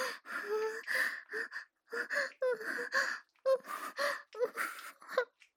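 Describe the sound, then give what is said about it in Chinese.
Heavy panting from a person who is out of breath with excitement and whose heart is racing. Many short, loud, partly voiced gasping breaths come in quick succession with an uneven rhythm. “还呼吸急促。是的，说话都费劲了，一直在大喘”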